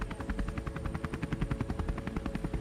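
A helicopter sits landed with its engine left running, in a scene from a role-playing game. The rotor thumps in a rapid, steady rhythm over a constant engine drone, with no voices.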